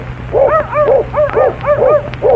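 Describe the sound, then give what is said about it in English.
A little dog yips in a quick series of high, arching yaps, loud and bright, with short gaps between bursts over a low hum. “The same as the little dog means when he says”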